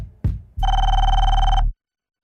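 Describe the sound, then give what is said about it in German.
A telephone rings with an incoming call for a marketing chief: a short thump, then one loud, steady electronic ring tone lasting just over a second before it stops abruptly. “Und dann bekommt ihr Marketingchef Eckert einen Anruf.”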